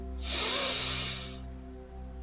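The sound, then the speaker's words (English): A slow, deep inhale through the nose during a guided relaxation breathing exercise: one soft, airy hiss of breath lasting just over a second, quiet over a steady low drone that continues after it. “So take a nice deep inhale through your nose.”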